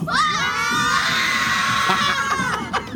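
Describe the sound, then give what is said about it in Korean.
Young elementary school students shout together on request, a loud, high-pitched collective yell that holds steady for about three seconds before breaking off. “우리 어린 학생들의 예. 기운 여러분 한번 받아보시겠습니까? 진짜 오리지널 생기운 한번 받아보시죠. 네. 마이크 열어주시면 얘들아 소리 질러!”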